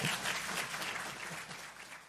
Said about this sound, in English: So I don't know if we're supposed to clap for our own pastor, but give Pastor Darren a hand.